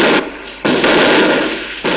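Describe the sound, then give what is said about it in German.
A massive volley of over 200 gunshots, fired at one instant from rifles including a silver-mounted one, merges into a loud, dense, crackling roar that surges and drops abruptly rather than sounding as separate shots. “Er hob seine silberbeschlagene Büchse und bei ihrem Blitz leuchtete es ringsum auf. In einem einzigen Augenblick fielen über 200 Schüsse.”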